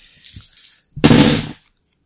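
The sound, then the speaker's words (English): A loud blast from an explosion jump in a video game, a single noisy burst lasting about half a second after a fainter hiss. “and fires and does a more flashy version of the explosion jump than last time.”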